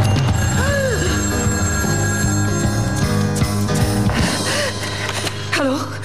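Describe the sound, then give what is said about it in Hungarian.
A telephone bell rings repeatedly among sustained tonal sounds. The rings hold at a steady, moderately loud level with no voices. “A telefon harmadszor is megcsendült.”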